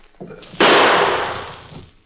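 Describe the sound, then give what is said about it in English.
A single sharp gunshot fired at a thrown stone cracks out loudly, then fades away in a long, gradually decaying tail. “Now, I want you to throw one stone out in front of me at a time. Like this? Yeah, that's right. Only this time, I'll shoot at it. Here goes.”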